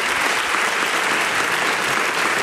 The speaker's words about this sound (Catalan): No, m'agrada aquest aplaudiment, us alegreixo moltíssim